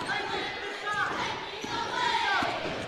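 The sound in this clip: A basketball dribbled during a Wildcats and Shelby County game gives a few dull bounces under steady crowd noise, with voices heard throughout.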